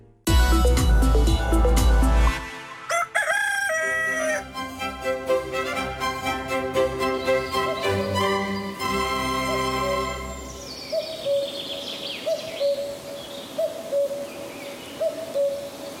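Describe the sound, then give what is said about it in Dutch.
A cuckoo calls through a forest near Roermond, its repeated hooting notes echoing in a regular series after an opening stretch of music. “Zij stuurt ons weer iets op, een koekoek. We krijgen natuurlijk wel eens vaker een koekoek opgestuurd, maar deze galmt wel heel erg lekker door het bos bij Roermond.”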